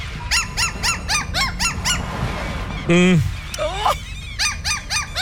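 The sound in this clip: A played recording of a seagull calling gives a quick series of sharp, harmonic squawks, then a louder, lower wailing cry and further calls over a steady background hiss.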